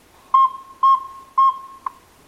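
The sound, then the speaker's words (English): Northern saw-whet owl calls played from an audio lure: three steady, evenly spaced high toots and then a shorter fourth note, clear and alone against a quiet background. “activates an audio lure that plays a saw-whet call”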